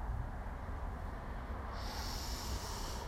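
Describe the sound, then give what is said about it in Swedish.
A single long breath taken during a breathing exercise, a steady, airy rush of noise lasting about three seconds and heard alone with no talk. “Andetag igen.”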